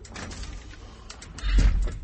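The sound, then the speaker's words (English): A door is shut in an abbot's office: a single dull, low thump lands near the end, after a stretch of soft rustling. “come in and shut the door”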